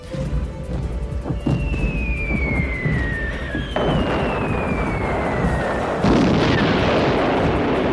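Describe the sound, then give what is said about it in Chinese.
Falling bombs whistle down in long, descending tones during a large German bomber raid on northern England. Each whistle ends in a heavy blast, two explosions in all over a continuous roaring rumble. “八月十五日，格林派出了开战以来最大规模的航空队，从丹麦和挪威出发，开始对英格兰北部进行空袭。”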